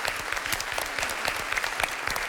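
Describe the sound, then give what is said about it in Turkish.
Applause from a quiz show audience after the contestants' points are tallied. The clapping is faint but continuous, with soft, quick, uneven claps for the whole short stretch. “Alkışlıyorum sizi.”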